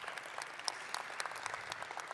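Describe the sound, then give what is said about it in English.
An opera audience applauds at the War Memorial Opera House in San Francisco as the final production of the season opens. The clapping is faint, dense and steady throughout, with scattered sharper claps. “Yes, we can clap for that,”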